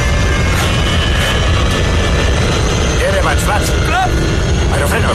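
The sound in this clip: An airplane crashing in a film scene: loud, continuous roaring engine noise fills the whole stretch, with warbling tonal chirps rising and falling over it and voices mixed into the din.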